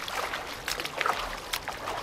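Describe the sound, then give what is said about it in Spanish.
Soft, irregular water splashes come from people swimming through the sea at night toward a small boat, faint sloshing and dribbling with a couple of slightly sharper strokes. “En medio de la noche, los tres se han tirado al agua y están nadando hasta el pequeño barco.”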